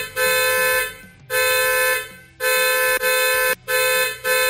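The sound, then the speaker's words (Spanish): A car horn honks in loud, bright blasts: three long sustained honks separated by short gaps, then two or three shorter toots at the end. “que suene ese claxon.”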